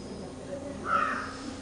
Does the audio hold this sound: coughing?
no